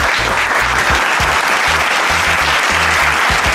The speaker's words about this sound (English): And now, please give it up for your host, Big Lou.